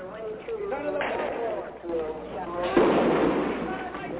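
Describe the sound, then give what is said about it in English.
Gunfire from a street gun battle on a main business street in Los Angeles: a few sharp, loud cracks break through people talking continuously. “Absolutely incredible scene. A gun battle in the middle of Broadway.”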